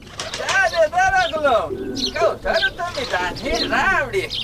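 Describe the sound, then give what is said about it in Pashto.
Pigeons coo in low, throaty phrases beneath a voice speaking, the sound rising and falling in short bursts throughout. “جار جار د موسا ګل کوترو، څنګه داسې رانه تاوېږئ لکه چې وږې یاسته؟”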